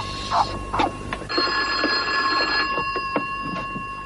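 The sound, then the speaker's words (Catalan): A telephone rings in one loud electronic burst of steady, layered bell-like tones lasting just over a second, with a few soft knocks and shuffles before and after it. “¿Crees que debemos contestar el teléfono?”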